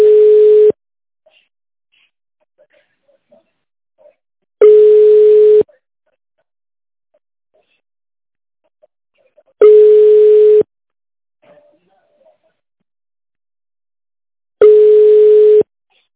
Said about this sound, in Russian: Оставайтесь на линии. Вам ответит первый свободный сотрудник.